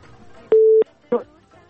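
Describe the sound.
A telephone busy tone follows a dropped call: one steady, mid-pitched beep lasting about a third of a second, then a shorter, rougher burst. Faint low-level talk sits underneath.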